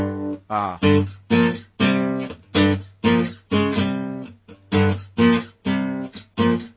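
Electric guitar plays a well-known rock riff with a common but incorrect chord voicing: many bright, full chord stabs in a choppy rhythm. Each stab is loud at first and decays quickly, with no voices.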